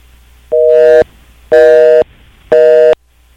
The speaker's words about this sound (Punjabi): ਹਾਂਜੀ, next call ਜੀ, ਤੁਹਾਡੀ ਲਾਈਨ ਡ੍ਰੌਪ ਹੋ ਗਈ ਹੈ।